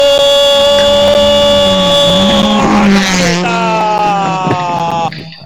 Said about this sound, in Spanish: Estoy acercando el coche a la vista.